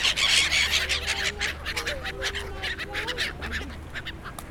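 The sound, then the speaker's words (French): Gulls squabbling over pieces of bread by ponds: several short, nasal, honking calls overlap above a steady rush of background noise, loudest at the start and then easing off. “Ça, c'est le bruit des mouettes qui se disputent des morceaux de pain sur les bords des étangs de flageolets.”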